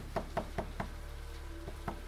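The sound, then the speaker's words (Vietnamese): Hands and feet pound on a wooden door: seven hollow thuds, four in a steady rhythm, then a pause and three more, fairly faint. “Tay chân sưng lên đỏ tấy vì nãy giờ liên tục đạp đập vào cửa gỗ”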